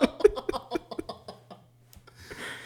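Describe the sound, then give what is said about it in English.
An alarm going off as a quick run of repeated tonal beeps that fade over about two seconds, followed by a brief soft rustle. “Oh, that was my alarm. I got to put out the trash.”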